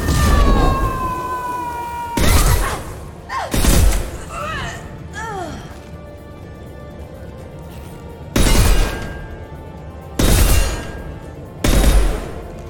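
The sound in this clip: Sniper rifle shots with incendiary ammunition in a video game: five heavy booming blasts at irregular intervals, with a person talking between them.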